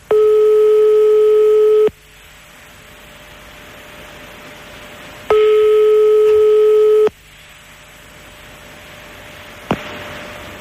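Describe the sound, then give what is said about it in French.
Ringback tone of a phone call to a home number: two long, steady buzzing rings, each just under two seconds, separated by quiet hiss. A click follows as the line picks up. “Attention, l'appel, attention, l'appel chez Johnny. Attention, attention, c'est parti.”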